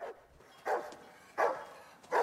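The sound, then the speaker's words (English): A female dog tugs at her chain and barks wildly toward a cornfield at night, letting out several sharp barks in a steady, spaced rhythm with brief quiet gaps between them. “he finds her tugging at her chain and barking wildly at the cornfield”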